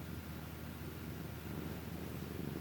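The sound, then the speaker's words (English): A cat purrs while being petted, a steady, low, continuous rumble that stays faint and even throughout, with no talking. “Purry, purry, kitty.”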